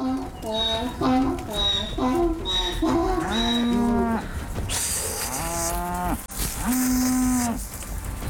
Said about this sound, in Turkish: Şimdi bu iki inek de bizimle gelecek.